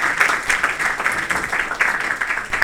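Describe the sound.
Audience applause at the close of a law lecture on political asylum, many hands clapping in a brisk, slightly pulsing patter of moderate loudness across the short stretch.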